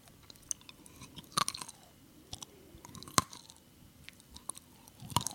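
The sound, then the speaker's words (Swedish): Crunchy chewing of a mouthful of nuts, quiet and close, with a few sharp cracking bursts among softer, irregular munching and no talk. “Käften full i nötter. Ja, så det knastrar gött.”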